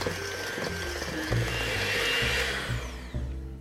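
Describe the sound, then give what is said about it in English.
Electric hand mixer creaming butter and sugar in a bowl: a continuous whirring motor drone with a rough, gritty texture, holding steady throughout without talk. “Grabbing my hand mixer, I'm just going to bring all these ingredients together.”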